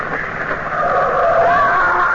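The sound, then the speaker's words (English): A car approaching fast produces a steady, broad engine and road roar that grows somewhat louder toward the end and stays unbroken, with no voices. “Come on, watch out. There's a car coming.”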